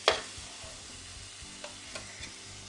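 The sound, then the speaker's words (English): Burgers sizzle in a frying pan, a steady crackling hiss with a sharp clatter at the start and a few light clicks later; no one speaks. “So I'm going to let these burgers cook just a little bit longer.”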